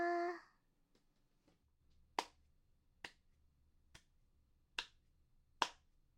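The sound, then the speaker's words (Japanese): Slow hand clapping: five sharp single claps spaced roughly a second apart against a near-silent background, after a brief voiced sound at the very start. “これ何の音かわかる？そう、手拍子。”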